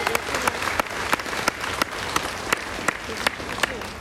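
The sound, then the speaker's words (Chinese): An audience applauds during a talk, a dense, steady clatter of many hands clapping with sharper individual claps popping out at an even pace throughout. “那就请大家，拜托大家，我们鼓掌哈！”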